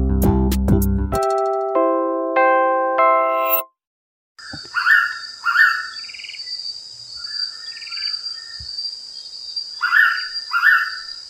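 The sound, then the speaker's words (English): Blue-winged pitta calls recorded in Thailand: several clear whistled phrases, often in quick pairs, rising above a constant high insect buzz, after a short electronic musical jingle and a moment of silence. “That is the sound of the blue-winged pita, and for ornithologists and birders in the Philippines, it's a pretty big deal.”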